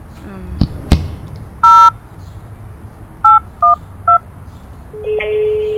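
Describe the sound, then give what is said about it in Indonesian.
Touch-tone telephone dialing: after a couple of sharp clicks, four crisp dual-pitched beeps sound, the first longer than the rest, and a steady line tone starts near the end over faint background noise. “telepon aja gitu ya”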